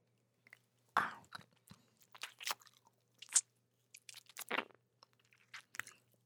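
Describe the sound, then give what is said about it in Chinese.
Crunchy chewing of a golden egg softened by saliva, many quiet, irregular crisp crunches and squishy bites alone with no talk. “被口水融化的金蛋用舌头一嚼就碎了。”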